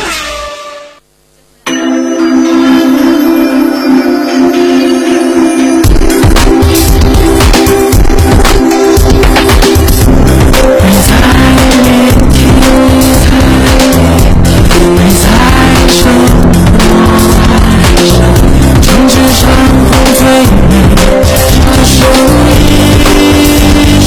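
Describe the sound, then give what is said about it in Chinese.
Go-kart engines rev loudly at a racing track with squealing tires. After a brief near-silence, a dense, continuous roar of high revving and skidding bursts in and stays intense throughout. “成为索尼克卡丁车带你撒把野，你就是上一个车王。”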